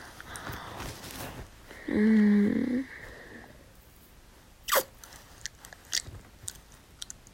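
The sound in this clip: Gum being chewed, heard as a handful of soft, irregular smacks and clicks in the second half, quiet and with no talking.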